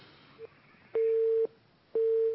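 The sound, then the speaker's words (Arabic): A telephone busy signal sounds after a call cuts off: a short blip followed by two long, evenly pitched beeps separated by a pause, quiet and unaccompanied. “انقطع شكل الاتصال كده.”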